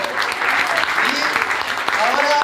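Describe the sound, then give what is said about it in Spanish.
Audience applause at an evening event where contestants are presented: dense, steady clapping fills the whole clip at an even loudness, with crowd voices mixed in. “Bravo, bravo, bravo, bravo. Muy bien, un aplauso.”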